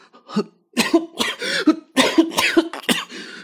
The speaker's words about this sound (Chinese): 安宗吓得被自己的唾沫给呛着了，一边咳嗽一边吸气。